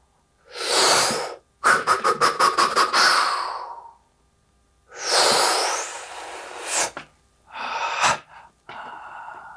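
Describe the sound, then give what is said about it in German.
Deep, audible breaths are taken during a breathing exercise: a few long, noisy inhales and exhales separated by silent pauses. One is broken into a quick series of short puffs, and shorter, sharper breaths come near the end. “dann atme ich von hier aus.”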